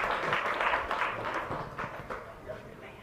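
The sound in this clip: An audience claps to welcome a woman about to tell her story. A brief, moderately loud patter of clapping is busiest at the start and gradually softens.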